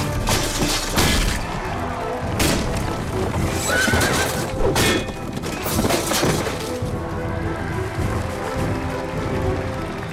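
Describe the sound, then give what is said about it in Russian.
Horses gallop and whinny as armoured knights joust with lances. Loud, dense hoofbeats and neighs fill the mix, with sharp crashing impacts breaking through. “Рыцари в доспехах сражаются в лошадях. Они скачут друг на друга и сбивают копьем.”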